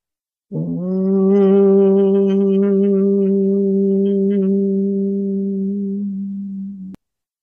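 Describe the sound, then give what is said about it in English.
A single voice chants a long, sustained "om" for energy vibration, holding a steady low, resonant hum for about six seconds before stopping abruptly. “And an ohm sounds like, it sounds like this.”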